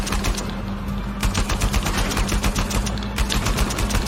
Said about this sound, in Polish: strzelaj, człowieku, strzelaj!